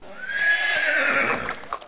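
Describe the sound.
A horse gives one loud, sustained whinny lasting over a second as a rider arrives, followed by a few brief knocks near the end.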